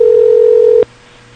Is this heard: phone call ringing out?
yes